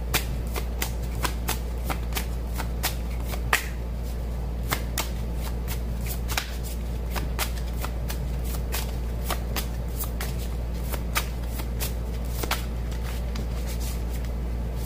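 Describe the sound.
Tarot cards being shuffled during a card reading: many crisp riffling snaps and soft sliding flicks repeat over a steady low hum, with no voices.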